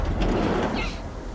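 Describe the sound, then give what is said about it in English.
A van's sliding door being shut, a broad rolling rush that runs for about a second and then stops. “He slides the door shut.”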